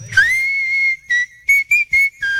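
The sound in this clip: A bright, high whistled song plays sped up from a vinyl record spun faster than its original speed. One long held note is followed by five short, crisp notes at a quick, lively pace, all loud and clear with no other sounds.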